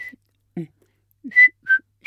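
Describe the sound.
A person whistles a signal as short, clear, high notes. The last three form a phrase whose middle note is lower than the notes on either side.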